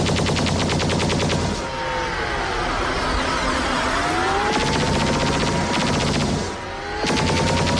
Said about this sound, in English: these kinds of drones are way too plausible these days. Yeah. They're shooting laser beams, though.